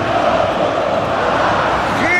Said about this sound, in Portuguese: Festa da torcida do Fluminense, Savarino referenciado.